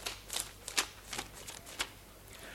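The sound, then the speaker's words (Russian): Pages of a novel being turned, several crisp, papery rustles and flicks spaced irregularly, each a short swish that stands alone with no talking. “Прошу всех проследовать за мной на страницу 310 романа Жюль Верна «80 тысяч километров под водой».”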